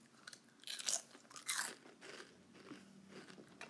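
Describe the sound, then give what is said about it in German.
Bones are chewed with a few loud, crisp crunches early on. Softer, irregular chewing and mouth sounds follow without any talk. “Mmh, mmh, köstlich diese Knochen.”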